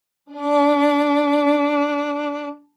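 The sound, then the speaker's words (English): A single sustained violin note played with subtle wrist vibrato, its pitch wavering gently and evenly through one long bowed tone, heard alone. “the violin. So now let me demonstrate a wrist vibrato. This is going to be more subtle.”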